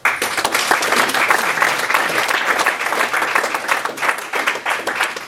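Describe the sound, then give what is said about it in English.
Audience applause at a mayoral hustings, greeting the candidates after their opening speeches: dense, steady clapping from many hands that stays fairly loud and even across the whole stretch. “This is the first time that the audience has clapped the candidates when they've made their opening speech.”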